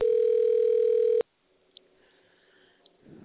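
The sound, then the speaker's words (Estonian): A telephone ringing tone on a call to a bakery's order line, one steady, loud single-pitch tone lasting just over a second, then cut off abruptly into near silence with faint line noise and small clicks. “Helistate Fazer Pagarid tellimiskeskuse telefonile.”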